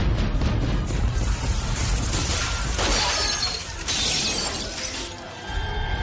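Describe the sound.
An aircraft cockpit's glass windows burst and shatter, making a dense, loud, continuous crash of breaking glass and debris that lasts several seconds with no voices.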